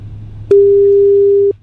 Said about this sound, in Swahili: tunakupigia simu live